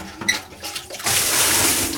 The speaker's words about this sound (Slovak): Tu je tvoje vedro vody.